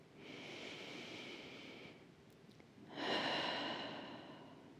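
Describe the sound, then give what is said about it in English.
A deep, slow breath is taken during a relaxation exercise, heard as two long, soft airy breath sounds separated by a short pause, the second one fuller and louder. “just place your hands on your heart and close your eyes and take a deep breath.”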